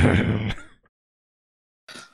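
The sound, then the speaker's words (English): A person clears their throat with a short, rough, raspy burst, then a silent pause and a brief faint breathy sound. “Gotta clear that throat.”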